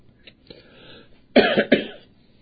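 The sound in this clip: Two loud, harsh coughing bursts with throat clearing come in quick succession, after a short stretch of faint rasping and breathing.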